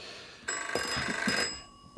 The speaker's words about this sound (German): Telefon.